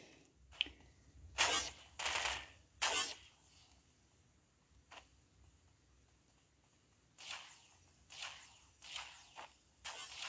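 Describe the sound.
Gunfire in the Roblox video game: sharp, bright bursts, a few in quick succession early on, then a quieter stretch with one isolated shot, followed by another cluster of several shots toward the end.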